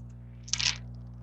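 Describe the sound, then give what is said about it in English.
Many dice rolled together in a tabletop role-playing game of Mutant: Year Zero, heard as one short, bright clatter over a steady low hum. “So I'm throwing a ton of dice,”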